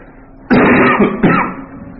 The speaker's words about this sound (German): ich habe ein bisschen Erkältung, also ich hoffe, es wird nicht zu auffällig, aber ich muss immer mal wieder husten und schnupfen